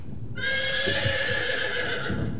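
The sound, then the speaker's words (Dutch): A horse neighs in one long, loud whinny that holds a steady, bright tone for nearly two seconds before breaking off, heard alone with no talk. “Terwille van Juro heb ik me in een paard veranderd.”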